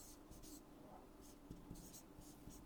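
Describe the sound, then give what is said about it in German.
Marker strokes scratch and squeak across a board as someone writes in green, in short uneven bursts of scraping over a low, noisy background. “Ich hoffe, ich schreibe richtig.”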